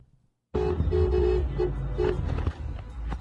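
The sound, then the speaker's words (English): Flatbed truck carrying burning hay bales driving by, a loud engine rumble that starts abruptly, with several short tonal toots early on and a drop in level near the end. “A flatbed just drove by with a bunch of hay bales on fire.”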